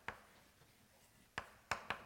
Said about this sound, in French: oui, Yao Yongqi, je l'écris quand même.